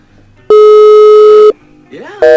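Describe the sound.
A telephone busy signal sounds after dialing: a loud, steady electronic tone holds for about a second and cuts off. A brief voice follows, then the tone starts again.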